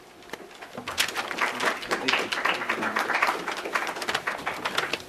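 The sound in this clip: Audience applause welcoming a speaker to a forum on U.S.-Azerbaijani relations, starting after a quiet moment and swelling into many overlapping claps that continue unevenly to the end.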